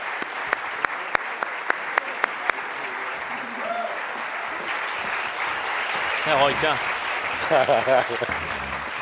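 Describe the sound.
Audience applause welcoming panel guests at a Los Angeles Public Library food event: a few sharp individual claps lead into dense, sustained clapping, and a voice starts talking over it near the end.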